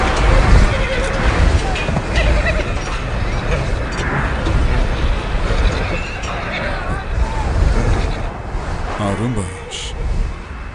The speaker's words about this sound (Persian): اون اسب از آغال بیارین بیرون. این کارو نکن، اون اسب به خودشون آسیب میزنن.